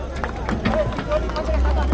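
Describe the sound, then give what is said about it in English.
A crowd of men huff and puff while straining to roll a sedated rhino onto a sled in the woods, with uneven heavy breaths, scuffling and murmured voices overlapping. “A crowd of men huffs and puffs and eventually rolls the knocked-out rhino over onto a sled.”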